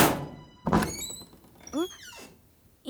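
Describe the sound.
A dull thunk as someone squeezes into a narrow locker, followed by a few short squeaky creaks; faint and without talk.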